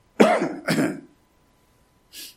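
A preacher coughs and clears the throat in the middle of a sermon: two rough bursts close together, then a pause and one brief, softer hack.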